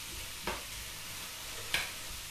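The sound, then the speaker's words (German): Mushrooms in a white wine cream sauce are stirred in a pan: a quiet, steady sizzle and bubbling with two brief scraping accents from the spoon, no talking. “Dann ist das auch schon erledigt und noch einmal kurz umrühren, bevor wir die Maultaschen klein schneiden.”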